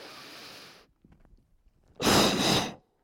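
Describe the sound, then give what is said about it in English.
Two exhales from a breathing exercise: a soft, breathy first exhale, a pause with faint small noises, then a louder, forceful second exhale. “So sometimes it comes out like two breaths. I didn't try to take two exhales. I just did a little extra jerk, and that pushed the air out kind of secondary, like as a second.”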